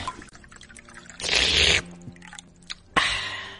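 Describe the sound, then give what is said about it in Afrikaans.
Wine being drunk, with short wet liquid bursts of pouring and sipping, one longer rush in the middle and a brief one near the end over a low background. “Hoekom drink jy wijn?”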